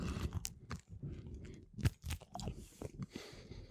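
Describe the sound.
Crunchy bites and chewing of crusty garlic ciabatta with a floured base, a crisp baked top and garlic pieces inside. Many irregular crunches of varying loudness, with one sharp, loud crunch standing out midway.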